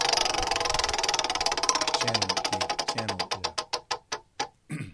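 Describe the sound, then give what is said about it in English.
Roulette wheel spinning, its pointer clicking in a rapid, even stream that gradually slows into widely spaced, distinct ticks before stopping. The clicks are loud and crisp, with no voices over them. “Call the roulette. Let's spin it.”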